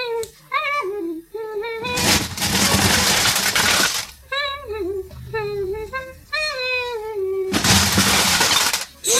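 Crockery plates breaking at a breakfast table, two long, loud shattering crashes of splintering pieces separated by a stretch of tonal sounds.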